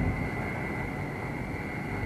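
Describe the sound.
A light aircraft's engine at full power during its takeoff roll, a constant loud droning roar with a steady high whine layered on top, unchanging throughout and with no voices.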